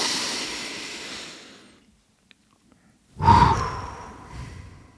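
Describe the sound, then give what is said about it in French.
Deep breathing: a long, airy breath slowly fades into near silence. After a pause, a second loud breath begins abruptly, then tails off. “Allez, on re-respire.”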